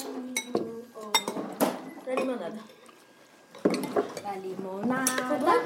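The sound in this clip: Spoon clinking in a jar of hot sauce: a few sharp, bright clinks and scrapes of metal on glass, scattered among voices talking.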